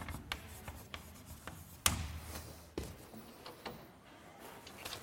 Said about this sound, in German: So, ich schreibe das nochmal etwas formaler hin als mit dem Bild.